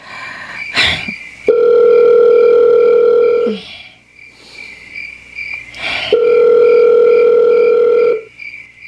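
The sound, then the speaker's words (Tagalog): Telephone tones while a call is being placed: two long, steady, loud buzzing tones separated by a pause, with brief clicks and rustling between them. “Tawagan ako si Ray.”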